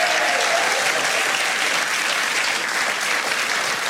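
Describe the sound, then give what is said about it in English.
Audience applause as a guest is brought onto the stage at a live show: dense, steady clapping that holds at an even, loud level throughout. “Put your hands together for Peter Drake.”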